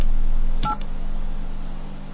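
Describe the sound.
A brief telephone keypad tone sounds once as a name is spelled into a dial-by-name phone directory, rising over a low steady line hum, with quiet hum before and after.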